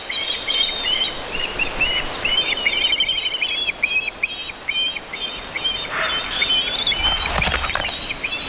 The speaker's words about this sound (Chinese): 地中海郁郁葱葱的森林正是黑鸢的家园。